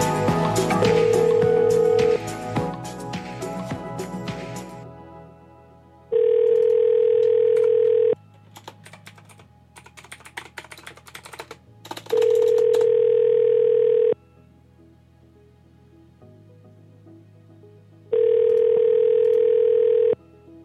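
A telephone tone sounds while a phone call is being placed: a steady mid-pitched tone in three long bursts separated by pauses of a few seconds, following several seconds of other mixed sound.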